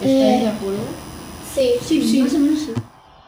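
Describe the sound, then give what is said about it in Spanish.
Children's voices while playing ball outdoors: high, lively calls and chatter in a few bursts that stop abruptly near the end. “También se pueden escuchar niños jugando a la pelota y otras cosas quizás que no escuchamos.”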